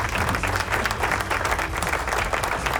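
Applause from a crowd after a band's cover song, dense and even clapping that runs unbroken at a steady level through the whole clip.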